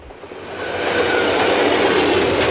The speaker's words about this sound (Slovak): Tak toto znie, keď stojíš pod viaduktom a nad hlavou ti prehrmí rýchlik.